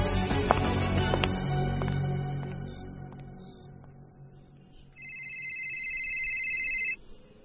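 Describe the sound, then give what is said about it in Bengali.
A mobile phone rings with a warbling electronic tone that holds for about two seconds, after a few sharp clicks and knocks over a low rumble. “পরদিন mobile বাজার শব্দে যখন ঘুম ভাঙল”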